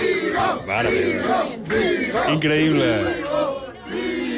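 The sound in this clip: An audience shouts at a rock-paper-scissors championship. A crowd yells together in loud, repeated bursts separated by short lulls.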